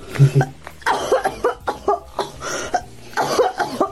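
Harsh coughing and sputtering from a woman after something she was swallowing went down her windpipe. Many rapid bursts come in uneven clusters, fairly loud and choking throughout.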